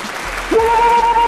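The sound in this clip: Brief burst of applause and crowd noise greeting a boxing-style ring introduction. The clapping grows louder partway through, and a sustained electronic tone enters at the same moment.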